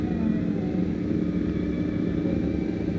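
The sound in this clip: Continuous low rumble and rattle of automobiles in street traffic at a crossing on a frosty day, a dense, steady drone without distinct individual passes or talk.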